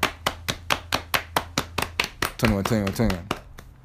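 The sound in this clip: Hand clapping in a fast, steady run of many sharp, even claps, with a voice briefly joining near the end.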